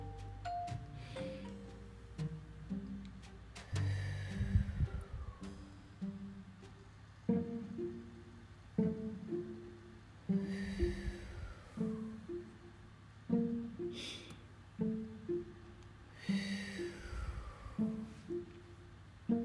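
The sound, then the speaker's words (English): Three slow, deep breaths are taken as a calming exercise, evenly spaced about six seconds apart, each a soft whoosh over gentle chiming music. “My puppy mind only heels if I take three slow, deep breaths. Let's try it together.”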